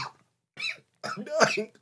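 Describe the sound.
Coughing after something went down the wrong pipe: a few harsh, throaty coughs in quick succession, the later ones longer and more strained.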